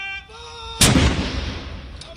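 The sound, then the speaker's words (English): A single loud cannon blast from a royal gun salute fired in London's Hyde Park to mark the Queen's death. The sudden boom is followed by a long, slowly decaying rumble. “royal salutes have been fired in London's Hyde Park and at the Tower of London to mark the Queen's death.”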